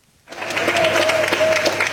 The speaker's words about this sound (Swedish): Med applåder, kramar och tårar tog väntande anhöriga emot sina nära och kära på Ben Gurion flygplatsen i Tel Aviv.